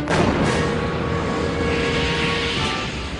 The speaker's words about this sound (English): so the rocket goes off